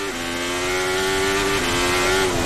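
A race car engine is heard onboard at full throttle and then lifting off: a loud, sustained high drone whose pitch steps down briefly twice. No one speaks.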